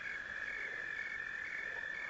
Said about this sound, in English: We can hear the crickets sing as the birds end their tune for the night. The occasional toad croaks as the night falls on the valley.